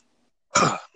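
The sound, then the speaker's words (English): A single short human cough breaks a moment of silence, clear and alone. “Let me just cough.”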